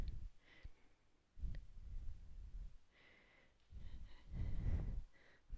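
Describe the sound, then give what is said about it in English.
Someone draws a deep breath in during a yoga exercise, a soft airy intake heard faintly in the quiet. The breathing comes in a couple of gentle surges with a short pause between them. “one long line, ascending. Breath in.”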